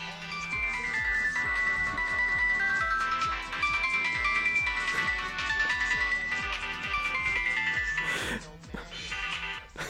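A mobile phone ringtone goes off in the middle of an interview. A loud, looping electronic melody plays over a steady repeating beat, with a brief noisy burst near the end.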